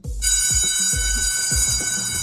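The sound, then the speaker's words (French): A school's electric bell at a high school in Brest rings continuously, a loud, steady, high-pitched tone that holds without a break. Regular low thuds pulse beneath it roughly every half second. “Par quoi on pourrait remplacer la sonnerie pourrie du lycée Parce que bon, voilà, pour l'instant, c'est ça”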